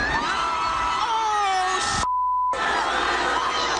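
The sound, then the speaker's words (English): A street crowd of Philadelphia Eagles fans celebrating a Super Bowl win screams and cheers loudly and continuously as an awning outside the Ritz-Carlton Hotel collapses under people, briefly cut by a steady censor bleep. “That's the sound of an awning outside the Ritz-Carlton Hotel collapsing after fans climbed on top of it during the street celebration. At least a dozen people went down with the awning.”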